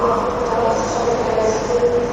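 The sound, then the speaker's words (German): Ambience of Frankfurt's main railway station: a dense, continuous wash of rumble and hiss with no distinct individual events standing out. “hole ich uns mal so ein kleines bisschen Frankfurter Bahnhofsstimmung ins Studio”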